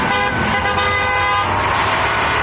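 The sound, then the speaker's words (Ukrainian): A column of construction vehicles led by a KamAZ truck sets off onto a road bridge over the Kerch Strait. A loud, steady horn blast sounds over dense engine and traffic rumble, then gives way to a continuous vehicle roar. “Керченську протоку та сів за кермо КамАЗа. Позаду вишикувалася колона будівельної техніки. Автівки рушили.”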